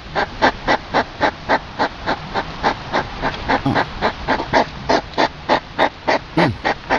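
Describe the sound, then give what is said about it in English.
Hedgehogs mating in a school playground in Augsburg, Germany, making a long run of loud, breathy huffing snorts. The snorts are evenly spaced, about three per second, and repeat steadily with no voices. “You know what it was? What? Hedgehogs were screwing. Oh. It's mating hedgehogs.”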